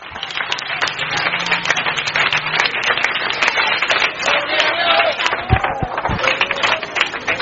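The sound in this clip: Applause from a church audience, a dense, steady wash of clapping that runs loud and unbroken through the whole stretch, with a few tonal vocal sounds rising over it near the end.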